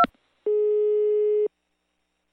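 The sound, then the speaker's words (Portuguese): Telephone line tone while redialing after being hung up on: one steady beep about a second long at a low-mid pitch, followed by silence, with faint clicks at the start and end. “Desligou assim na cara, é? Vamos ligar de novo, vai.”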